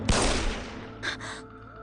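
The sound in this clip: Gunfire after an order to shoot: a sharp, loud burst with a rattling decay, followed about a second later by a second, shorter crack of noise.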